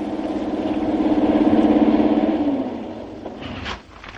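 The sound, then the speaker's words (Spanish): A black car pulls up and parks in front of a town hall. Its engine hums with a low, pulsing throb that swells, then eases and quiets as it settles, ending with a brief sharper noise. “El coche negro aparca frente al ayuntamiento.”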